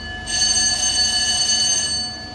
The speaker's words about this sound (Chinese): 清晨，随着急促的战斗警报拉响